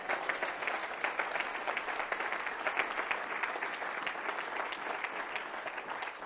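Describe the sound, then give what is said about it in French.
Sustained applause from a church audience acclaiming the Lord during a sermon, with dense, steady clapping that holds at an even loudness for the whole stretch. “Quelqu'un peut-il juste acclamer le Seigneur”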